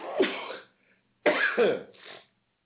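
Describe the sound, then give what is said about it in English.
A loud human sneeze bursts out, followed after a brief pause by further harsh, breathy bursts, with no talk around them. “I hope I hit the mute button before I sneezed, because that was loud.”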